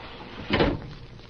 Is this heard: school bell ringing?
no